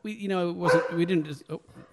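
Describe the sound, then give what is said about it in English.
A dog barks and whines in a run of voiced, tonal yelps that rise and fall. The calls are fairly loud and mostly continuous, ending in a few shorter, choppy bursts. “There goes the dog. It's a good dog.”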